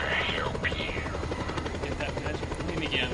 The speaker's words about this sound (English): It's the magic plane.